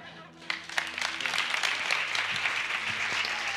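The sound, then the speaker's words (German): Applause breaks out in a church service, rising quickly after a brief quiet opening into steady, sustained clapping from the audience that holds at an even level to the end. “Geben wir mal Andreas noch mal einen kräftigen Applaus.”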